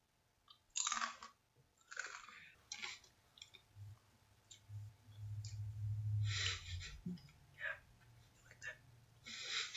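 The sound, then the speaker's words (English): Crunchy chips chewed close up for ASMR: many crisp, irregular crunches and bites, some loud and some softer, with a long grinding stretch of chewing in the middle. “I need some food. I need some chippies. Yeah, I can grab you some chippies.”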